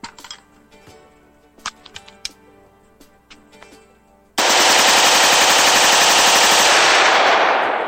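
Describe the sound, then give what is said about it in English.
A semi-automatic rifle fires rapidly without a bump stock in a long, unbroken volley of loud shots. Before it, a few scattered light clicks and handling taps are heard. “as you can see, semi-auto rifles really don't need a bump fire stock to shoot fast”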